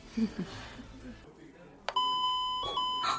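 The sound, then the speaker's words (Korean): An intercom rings with bright electronic beeping tones that begin partway through and repeat a few times. They cut in after brief talk over a low background murmur. “언니, 인터폰 울려. 왜 뭐 울리는 거지?”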